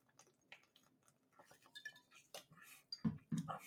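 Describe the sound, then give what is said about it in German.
A person drinks cola: soft clinks and faint rustles lead into louder gulping swallows near the end, all quiet and close. “Ah, der, der eifrige Kenner wird wissen, es ist Cola, was ich hier gerade trinke.”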